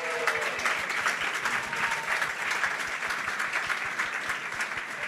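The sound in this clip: Audience applause rings out at a live show as a guest is cheered, a dense, even wash of many hands clapping that holds at a steady level throughout with no pauses.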